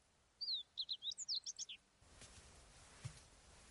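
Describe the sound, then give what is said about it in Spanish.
A small caged bird chirps in a rapid run of high, bright notes lasting just over a second, followed by a quieter, steady noisy background. “mira al pajarillo enjaulado”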